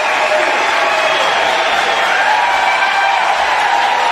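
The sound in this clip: A large crowd cheers and applauds at a North Carolina GOP convention during Donald Trump's speech. The roar is loud and unbroken, holding steady throughout.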